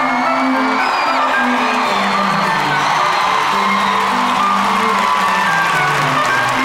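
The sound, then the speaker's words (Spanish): A crowd cheers and whoops with scattered shouts as performers are welcomed. The sound stays loud and continuous throughout. “Reciban con un fuerte aplauso a Don Diazepam y a Don Lexatin.”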